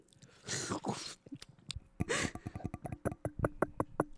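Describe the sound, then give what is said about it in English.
Close-up eating and chewing, intimate and mouth-near, with two breathy bursts followed by a quick run of many crisp, crunchy clicks in a steady chewing rhythm. “record the eating sounds very intimately.”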